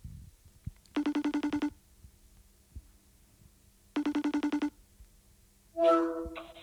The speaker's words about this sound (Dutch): ik ga even bellen via FaceTime audio, want dat is altijd fijn voor het, eh, geluids, de geluidskwaliteit